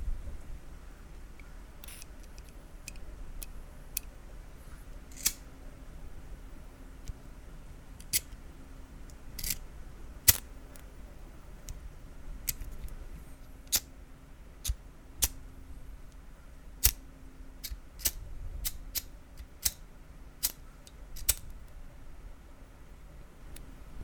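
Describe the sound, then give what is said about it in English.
Lighter played with in ASMR, its metal parts giving many sharp, irregular clicks and flicks that stand out against a soft, steady hiss, with no talking. “For next, I've got a lighter I'm just going to play with for just a couple seconds.”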